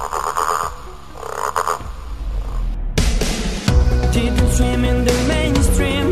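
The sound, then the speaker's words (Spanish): A green frog croaks repeatedly, fairly loud and steady throughout, with no talk over it. “Soy verde, me gusta saltar, jugar en el charco y también sé croar. ¿Quién soy? La rana.”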